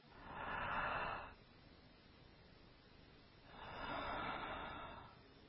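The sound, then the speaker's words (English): Two soft, airy swells make up a demonstrated deep inhale and slow exhale, separated by a quiet pause. The second breath is slightly longer and gentler, and no voice is heard. “For example, inhale very deeply, count to five or six, and then exhale slowly, kind of like this.”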